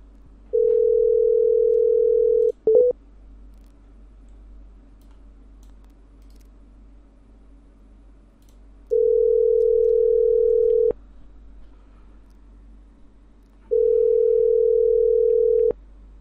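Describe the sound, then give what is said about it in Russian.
Telephone ringback tones while calling someone: three long, steady mid-pitched beeps of about two seconds each, separated by long silences, with a short click just after the first beep. “Сейчас я ему наберу.”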